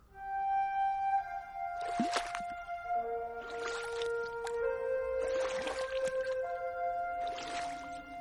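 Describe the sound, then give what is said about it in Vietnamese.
Water sloshing around a sampan boat drifting slowly on a river at night, a few soft splashy swells rising and fading over sustained, steady musical tones. “Giữa đêm tối, trên mặt sông mênh mông, có chiếc ghe tam bản lừ lừ chậm chạp trôi.”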